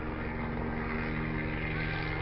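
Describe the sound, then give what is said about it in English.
A green-and-yellow sheriff's helicopter flies near a port, its rotor making a steady, dense drone that stays at an even, moderate loudness throughout. “So leaving the port, and of course, helicopter. Now that's the sheriff's.”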